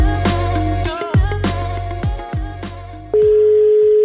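A phone call is dialed with a quick series of short, bright, pitched beeps, each ringing out briefly. A steady, sustained call tone follows and holds to the end, with no talking.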